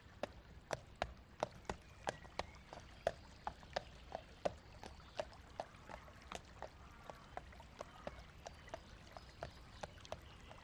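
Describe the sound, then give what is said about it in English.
Hooves of a pony pulling a trap clip-clop along a road as it trots away, a steady, even run of many sharp, light hoofbeats over a quiet, faint background. “The pony trap slows outside your gate, and you step down with thanks as you watch it trot off down the road.”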